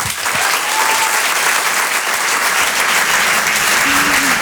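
An audience applauds a comedian at a stand-up comedy show. The clapping is dense, loud and steady and does not let up for the whole stretch.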